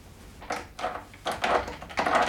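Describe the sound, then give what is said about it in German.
A stuck door with a rusty lock being tried, giving four rattling, scraping bursts of wood and metal as it is tugged, the later ones longer and louder. “Das Schloss scheint verrostet zu sein. Ja, warte mal, vielleicht klemmt die Tür.”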